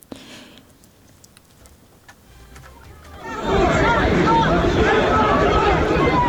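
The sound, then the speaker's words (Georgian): Street noise on Tverskaya Street in central Moscow as police detain opposition protesters. A quieter murmur gives way partway through to a sudden, loud, dense wash of crowd noise with overlapping voices. “ეს ხმაური, რომელიც ალექსეი ნავალნის მომხრეების დაკავებას ახლავს, ჩაწერილია მოსკოვის ცენტრში, ტვერის ქუჩაზე”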